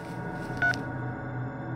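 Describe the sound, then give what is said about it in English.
A smartphone keypad gives a single short, clear tone as a number is dialed, standing out briefly above a steady low background hum. “Tossing it aside, I dialed the number.”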